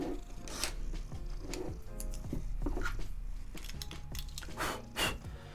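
A cat purring softly, a faint low rumble running throughout, with scattered small clicks and rustles on top.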